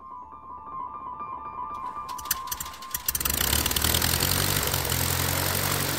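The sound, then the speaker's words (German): A small propeller airplane in Sicily, worn and in need of fresh paint, idles with a steady buzzing drone. Partway through, its engine revs up into a louder, fuller roar that holds to the end, with no voices. “Das Propellerchen braucht dringend einen neuen Anstrich.”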